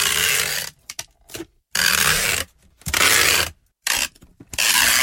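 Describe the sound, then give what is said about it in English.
Packing tape ripped away in four long, loud, harsh tearing bursts, with short crackling pulls and brief silences between them and no voices. “That sounds like sticky tape. Or yeah, tape. Packing tape. Yeah. That's it. Me having my legs waxed with it.”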